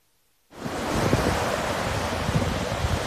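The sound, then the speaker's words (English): Ocean surf rolling onto Holden Beach as Hurricane Dorian approaches: a broad, steady roar of waves that starts abruptly after a brief silence and continues unbroken, swelling slightly at moments. “The surf was up.”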